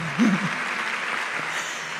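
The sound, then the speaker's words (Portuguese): Congregation applause at a church service, a dense, steady patter of many hands that holds evenly for about two seconds, with a brief voice near the start. “Pode palmas, aplaude todo mundo junto, vai, para não ficar mexuruca.”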